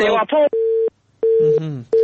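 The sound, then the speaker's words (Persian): Telephone tone after a call disconnects: steady single-pitch beeps pulse on and off in a regular pattern. A voice talks at the start and again between the beeps. “متاسفانه تماسشون باز قطع شد.”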